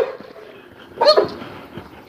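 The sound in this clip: A worked-up dog gives one sharp, loud bark on a morning walk, standing out briefly against otherwise quiet surroundings.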